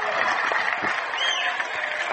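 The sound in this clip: Fans at a high school baseball game between Rushi and Lincoln View cheer and applaud, a steady dense wash of clapping and crowd voices that stays fairly loud throughout.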